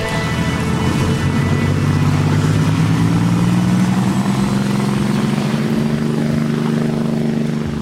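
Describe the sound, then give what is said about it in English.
A yacht engine surges ahead at full throttle with a loud, steady, droning roar. Its low humming tones creep slightly upward in pitch, and the sound holds constant with no voices. “she gasps as the yacht surges ahead”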